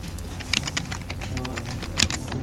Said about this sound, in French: Donc je clique là, je tape mon pseudonyme.